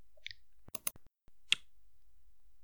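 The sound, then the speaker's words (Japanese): A few faint, crisp clicks sound over near silence. They come in a sparse, irregular pattern, with a slightly stronger pair close together and another lone click a little later. “どこをクリックするのかな？ ここかな？”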